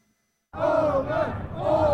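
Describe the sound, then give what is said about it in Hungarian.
A crowd celebrating on Hungarian parliamentary election night, April 12, bursts into loud cheering after half a second of silence, a dense roar of many voices that stays strong to the end. “Ünneplő tömeg az országgyűlési választások éjszakáján április 12-én.”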